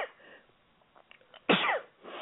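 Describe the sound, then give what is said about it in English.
A single sharp human sneeze bursts out after a stretch of faint, scattered small noises, followed by a softer breathy sound that trails off. “Oh, excuse me. I'm going to sneeze again.”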